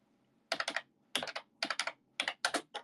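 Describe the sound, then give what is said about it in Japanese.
Loud clacky computer keyboard typing in a few quick bursts of many keystrokes, each burst a rapid run of sharp clicks, with short pauses between bursts. “ずっと思ってるけど僕のキーボードってうるさいよね、カチャチャチャチャチャチャチャチャね”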